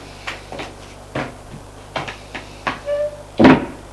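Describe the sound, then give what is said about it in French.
A wooden door being opened: a series of light knocks and handling clunks, a short squeak, then one louder thud at the end. “elle ouvre une porte de bois.”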